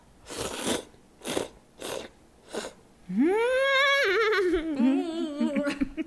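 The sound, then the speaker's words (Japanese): Noodles slurped from a sweet-leaning salty soup: four short, noisy slurping bursts in an even rhythm, then a drawn-out voiced hum that rises and wavers. “甘めのお塩のスープって感じです、で、旨味がすごい凝縮されてる、あの麺がすごく弾力と柔らかさがすごい同時にあって”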